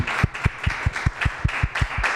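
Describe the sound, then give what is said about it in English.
An audience applauding after a presentation: loud, steady clapping with many evenly spaced, sharp claps in a regular rhythm. “please give one warm, big round of applause for that wonderful presentation by Candace.”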